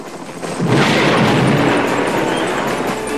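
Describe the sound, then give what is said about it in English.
Heavy-duty gunfire from a helicopter swooping low over the ground: a sudden loud, dense roar bursts in and then holds steady and rough to the end, with no voices. “A helicopter appears and swoops in close to the ground. It passes over the Nova men, then opens fire on number 5.”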